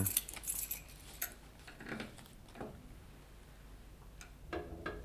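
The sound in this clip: Faint jangling of keys used to open a safe: light, scattered metallic clinks up front, then quieter handling sounds and a few more small clicks.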